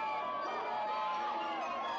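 Townspeople shout as Tatars drive them beneath the walls of a besieged medieval city. The overlapping cries of the crowd blend into a faint, continuous roar.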